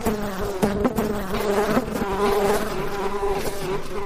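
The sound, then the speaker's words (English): Bees buzz at a beehive in a loud, continuous drone with a steady humming tone and slight wavering, heard alone without any talk. “They found a beehive and ate honey by the handfuls.”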